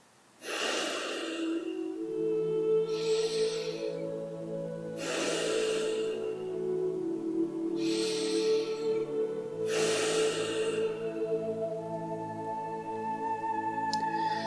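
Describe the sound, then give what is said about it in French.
Slow, deep breaths of a breathing exercise: several long, airy inhales and exhales spaced a few seconds apart. A soft sustained tone holds steady underneath. “profiter de ces respirations pour euh, observer euh, les manifestations du corps, ce que ça change, ce que ça fait au corps. Le fait de respirer.”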